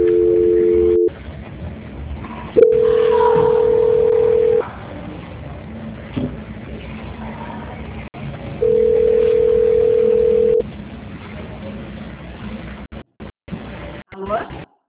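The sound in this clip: Telephone call transfer tones play on a phone line: three steady, even mid-pitched tones, the first about one second long and the next two about two seconds each, separated by quieter line noise.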